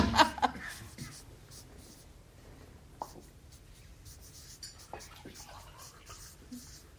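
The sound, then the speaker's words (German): Someone writes by hand, a faint scratching of short pen strokes and light taps, a little louder at the start and then softer and irregular. “Ich schreibe das so auf.”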